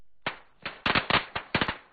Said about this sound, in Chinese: 华路边忽然围了一群人，鞭炮声噼啪响起，见货还有几只高升窜到半空炸开，震耳欲聋。